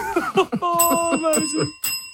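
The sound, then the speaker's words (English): A bicycle-style bell rings several times in quick, bright, metallic trills, sounding over people talking and chattering. “I hear the bell”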